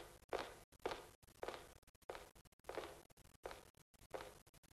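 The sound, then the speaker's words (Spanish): Footsteps climb the stairs inside the entrance of an apartment building, a faint, steady series of soft thuds in an even walking rhythm, with no voices. “Suben a los pisos.”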